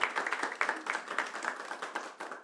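Lively applause from an audience at a kafana evening after a performance by singers. Many quick, fairly faint claps overlap in a steady patter.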